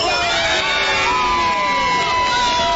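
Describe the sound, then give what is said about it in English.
Loud, continuous cheering from a soccer watch-party crowd of Switzerland and Canada fans, with shouts, whoops and whistles blending into a dense roar that stays intense without pause. “cheers erupting from the crowd with everyone on the edge of their seat.”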